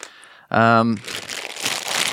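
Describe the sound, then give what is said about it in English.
Crinkling of the plastic package of Spangler Marshmallow Circus Peanuts, a fat-free candy, follows a brief voiced tone. The crisp, irregular crackling rustle continues steadily to the end. “This is the sound of the package of Spangler Marshmallow Circus Peanuts, a fat-free candy.”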